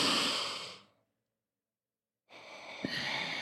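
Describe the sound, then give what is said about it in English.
Deep breathing in a guided exercise, in through the mouth and out through the nose: one long, airy breath that fades out, about a second of silence, then another steady breath. “Okay, so we're going to breathe in. Let me hear it.”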